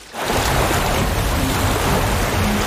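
Rushing water surges in a cartoon as a river floods toward an ice wall. The roar starts abruptly and then holds as a loud, steady, dense wash with no voices over it.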